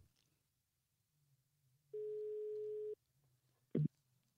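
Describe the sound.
A telephone ringing tone sounds while someone is being called: a single steady, mid-pitched tone lasting about one second over a faint low hum, followed shortly by a brief knock or click.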